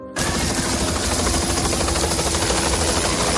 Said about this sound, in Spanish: Este es el sonido de uno de los helicópteros que ha ayudado a extinguir un incendio en la localidad de Valencia de Alcántara, en Cáceres.